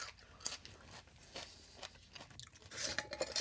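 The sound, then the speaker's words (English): Someone chews a mouthful of salt-only lacto-fermented greens: soft, moist crunches and bites at an uneven pace, faint and without talk. “So I'm going to, just for fun, I'm going to taste one of my previous batches of fermented greens.”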